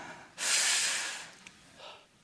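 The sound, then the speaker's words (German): A deep inhalation through the nose makes a loud, hissing breath. It swells suddenly, holds for about a second and fades, followed by a fainter, shorter breath. “Wir atmen ein”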